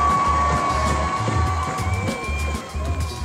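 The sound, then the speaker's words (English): A street protest crowd of demonstrators in St. Louis, Missouri, protesting a former police officer's acquittal, makes a dense wash of cheering and shouting over a steady, low rhythmic thumping. “you're hearing their sounds as demonstrators turned out for the fourth day in a row in St. Louis, Missouri, protesting against the acquittal of former police officer Jason Stockley”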